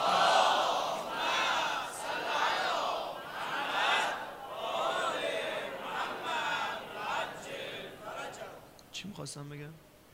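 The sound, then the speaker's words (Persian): A crowd at a religious gathering loudly chants salawat and Ya Hussain, many voices merging into a dense roar that swells and falls in a steady rhythmic pattern throughout. “بلند بگو یا حسین. هر چقدر دوست داری اربعین برات امشب باب الحوایج کربلا امضا کنه، بلند صلوات بفرست.”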